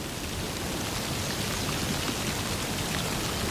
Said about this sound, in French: Une fine pluie éparse s'écoule